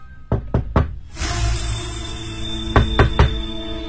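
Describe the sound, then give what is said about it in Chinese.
Knocking on an apartment door in a six-storey residential building divided into small rooms, during a door-to-door inquiry: two sets of three sharp knocks separated by a pause, over a steady background hum. “一家一家的敲门询问”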